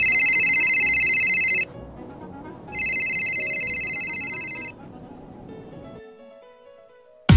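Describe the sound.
A telephone rings with two long, steady electronic rings separated by a short pause, then falls quiet under a low background hum.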